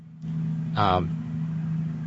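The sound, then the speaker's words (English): A truck passing outside gives a steady low engine rumble and drone through the whole clip, with a brief voice-like sound rising over it near the middle. “Sorry, there's a truck passing outside.”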